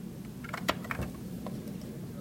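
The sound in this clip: Light clicks of an engineer typing on a computer keyboard: a few soft, irregular taps, faint against a low steady hum.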